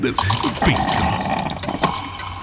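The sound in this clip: Coffee being poured: a loud liquid gurgle and splash with some clicking mixed in, running steadily through the whole moment.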